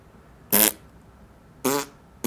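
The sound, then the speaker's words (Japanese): Two loud, buzzy farts, each lasting about a quarter second and separated by quiet, with a third one beginning right at the end. “お姉ちゃんのおならの音聞いて興奮しちゃった。お姉ちゃんのおならの匂い嗅いで興奮しちゃったんだね。じゃあもう一発しちゃうんだから。”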